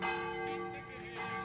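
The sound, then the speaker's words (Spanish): Church bell ringing from the bell tower of the Valdemorillo parish church, built on a 12th-century defensive tower. A single sustained, resonant metallic tone with steady overtones rings throughout without fading. “la importancia de este punto, cuyo campanario suena así, espectacular.”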